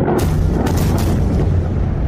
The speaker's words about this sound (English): of jets taking off from one of its aircraft carriers already in the Red Sea.